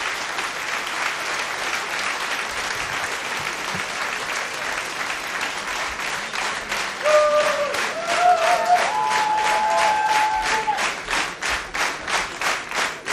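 Sustained audience applause, a dense, steady roar of many hands that swells slightly past the midpoint, with individual claps growing more distinct toward the end.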